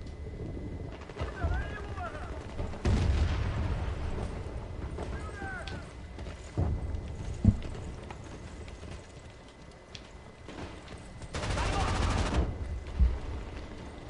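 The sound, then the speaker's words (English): Gunfire rings out in the video game Medal of Honor: scattered sharp shots and a couple of longer bursts under people talking. “Uh-oh. You're getting shot at.”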